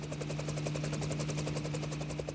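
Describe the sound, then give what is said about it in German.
A helicopter flies over the Greenland ice sheet, its rapid rotor chop pulsing steadily over a constant engine drone. The sound is continuous and even, with no talk. “David Holland fliegt im Hubschrauber über das weiße Nichts.”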